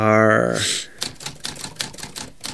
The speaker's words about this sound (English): I can't type and talk.